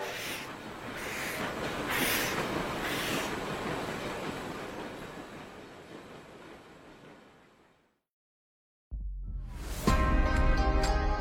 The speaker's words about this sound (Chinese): 这时火车终于开动，汽笛声响起，由慢而快